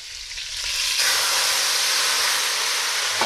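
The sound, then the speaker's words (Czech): Loud hissing sizzle as plum brandy is poured into a hot pan with meat for flambéing. The sizzle rises sharply within the first second and holds as a steady, dense hiss. “tak mám tady slivovice, mi tady stála, jak jsme si dělali čaj, tak já tam trošku slivovice a oflambuju to. Takže zalijeme”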